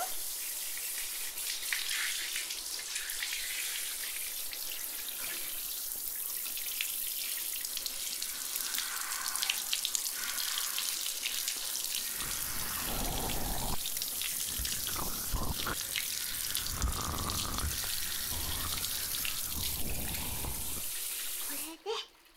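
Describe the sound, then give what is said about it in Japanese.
Water rinsing through hair: a steady, loud hiss of running water that turns heavier and more splashy in the second half, then cuts off at the very end. “いい感じに全体が流れたら、一旦全部流しちゃいます。”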